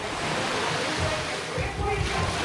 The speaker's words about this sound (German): Die Wellen prallen direkt auf die Betonterrasse.